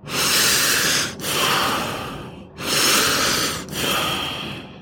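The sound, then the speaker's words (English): Deep breathing during a group breathing exercise before a writing session: a few slow, airy inhalations and exhalations in steady succession, each long and breathy, with no talk over them. “So we're going to breathe three times.”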